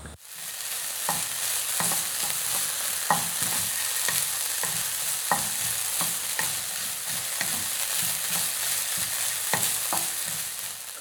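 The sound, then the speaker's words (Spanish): Food sizzles and crackles as it fries submerged in plenty of oil in a pot, a loud steady hiss punctuated by many sharp clicks and scraping stirring strokes, with no talk. “Se le echa bastante aceite a la olla y entonces ya, ya hunde toda”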